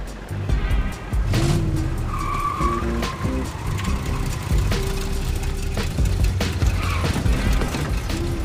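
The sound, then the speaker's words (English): Tires squeal and skid as a truck pulls into a school parking lot, with repeated high whining squeals cutting over a loud, continuous vehicle roar. “pulls up to the school parking lot in his truck”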